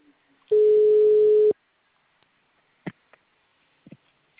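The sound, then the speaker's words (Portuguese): Telephone ringback tone as an outgoing call is placed: one steady, mid-pitched tone lasting about a second, then silence broken by a few faint clicks. “tá chamando agora”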